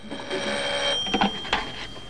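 Telephone ringing in a hotel room, a short electronic ring with steady high tones and a few sharp bursts, heard alone without talk.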